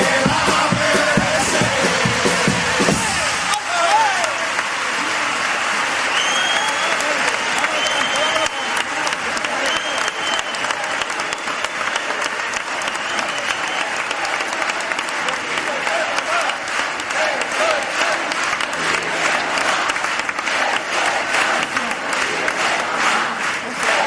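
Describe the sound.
Loud, sustained applause from the audience at a Cádiz carnival pasodoble, a dense and steady clatter of many hands that carries on for the whole stretch, with crowd noise blended in.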